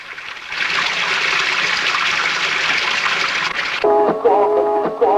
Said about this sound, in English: In a room behind her, a sink overflows with water.